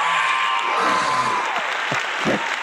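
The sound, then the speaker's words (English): An audience applauds a guest's arrival, a dense, steady clatter of clapping that fills the whole moment at an even loudness. “Ladies and gentlemen, please put your hands together and welcome Danny Levin.”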